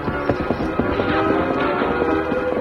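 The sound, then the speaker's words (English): A great white stallion gallops off, its rapid hoofbeats forming a fast, steady clip-clop of many strikes over a dense, continuous background. “The great white stallion leaped forward.”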